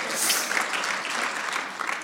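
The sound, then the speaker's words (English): A church audience claps their hands during a lively morning service. The clapping is steady and busy at moderate volume and carries on without a break. “The people are alive this morning. They're clapping hands.”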